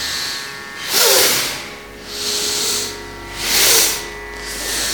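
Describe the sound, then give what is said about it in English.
Forceful exhales through the mouth during a stretching exercise, a steady series of hissing breath bursts that alternate between stronger and softer pushes of air. “You really want to forcibly expel the air on an exhale. Yes, like that.”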